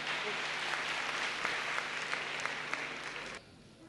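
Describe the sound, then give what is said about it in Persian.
Audience applause at a seminar: steady, moderately loud clapping that holds for about three seconds, then stops abruptly and leaves a quieter background. “دست برای من بزنید متشکرم”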